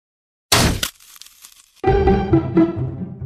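Car windscreen glass cracking in one short, sharp, loud burst lasting under half a second, followed by a brief quiet gap.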